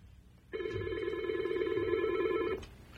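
A telephone rings for an incoming caller on a radio call-in line: one sustained electronic ring of about two seconds, a steady buzzing tone with bright overtones that starts and stops abruptly over a faint low murmur.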